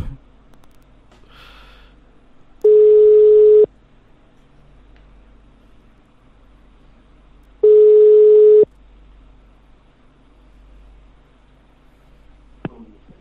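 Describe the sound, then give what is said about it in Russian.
A phone call to another number rings unanswered: two long, steady ringback beeps about five seconds apart, with faint line noise between them. “Так, набираю на другой номер.”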